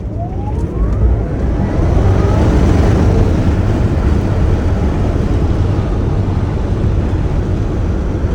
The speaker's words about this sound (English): He said, it sounds like you're riding a light rail vehicle because it's just electric motor noises.